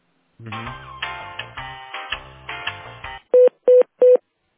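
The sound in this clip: Telephone transfer sounds on a business call: a few seconds of hold music, then three even, evenly spaced electronic tone beeps that are much louder than the music.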